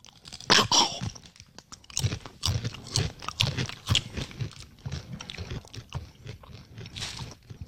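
Crunchy chewing of a heavily seasoned Mexican snack resembling tortilla chips, tart with citric acid: many sharp, crackling crunches and bites in an irregular rhythm, with no talk.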